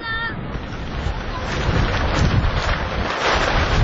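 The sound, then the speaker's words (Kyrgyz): Strong wind roars and buffets the multicoloured tents that serve as the only shelter, a dense, steady rush of noise with rough gusts that swell slightly louder through the second half. “Удурган шамал жападан жалгыз башпаана эсептелген түркүн түстөгү чатырларды далбактатып учуруп кетчүдөй туюлат.”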